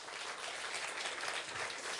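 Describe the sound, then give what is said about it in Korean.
Children in the audience of a special lecture applaud, a dense, even wash of clapping that stays at a steady level throughout. “네, 우리 실력 있는 친구들 박수 한번 쳐주세요.”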